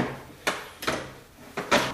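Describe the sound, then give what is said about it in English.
A unit slides along its rails into an equipment housing, like a drawer being pushed home, making a few short scraping, clunking bursts with quiet pauses between them. “It just slides in. Make sure the rails are lined up,”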